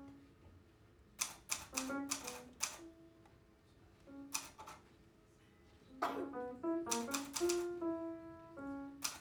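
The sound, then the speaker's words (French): Letters being typed on a typewriter: quick clusters of crisp key strikes in uneven bursts, set against sustained tones. “la frappe des lettres sur la machine à écrire”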